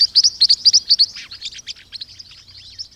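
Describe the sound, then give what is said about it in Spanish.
Green-rumped parrotlets give a rapid series of high, thin chirping calls. The calls are loudest and most sharply spaced at first, then run on as softer, denser twitters over a faint low hum. “Los polluelos de las cotorritas culiverde parecen aprender partes de sonidos de sus padres”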